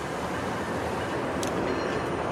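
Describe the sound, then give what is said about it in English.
A commuter train arriving at Eglinton station, bound for Union Station: a loud, steady rumbling roar of wheels and cars fills the whole stretch, with a brief high-pitched screech partway through. “Oh, here comes the train. Let's just hear it.”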